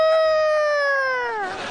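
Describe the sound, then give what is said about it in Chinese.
A voice imitates a big rooster crowing as it flaps its wings: one long, loud, sustained harmonic call whose pitch slowly falls before it breaks into a rough, breathy tail. “大公鸡是一抖着翅膀，它就开始叫唤开了”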